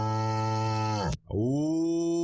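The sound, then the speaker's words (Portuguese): An ox moos at the Olaria farm: one long, loud, deep harmonic call that breaks off briefly midway and then carries on steadily. “Esse aqui é o boi lá da fazenda Olaria do amigo Gordinho.”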